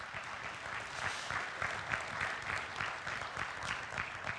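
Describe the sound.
Steady audience applause welcomes a guest speaker to the stage: dense, even clapping that holds at a constant level throughout with small swells and no voices.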